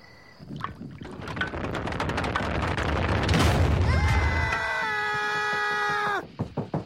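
A liquor still explodes in an animated cartoon: a dense crackling roar swells into a loud boom, followed by sustained ringing tones and a few sharp knocks at the end.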